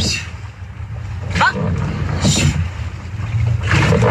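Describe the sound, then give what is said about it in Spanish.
Oar strokes and water from a women's rowing crew training in a rowing boat at San Sebastián: a few splashy surges rise above a constant low rumble of wind and water. “Entrenamiento de las remeras de Arraún Lagunac en Donostia.”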